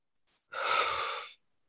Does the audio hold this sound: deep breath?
yes